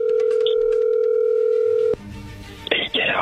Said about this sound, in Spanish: ahí se está marcando